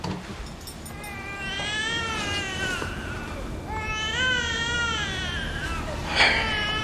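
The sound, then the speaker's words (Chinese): A baby girl cries in long, wavering wails that rise and fall in pitch. The sobbing comes in a few drawn-out bursts and swells briefly near the end. “你看这小妞在咱们这儿啥时候哭成这样了？”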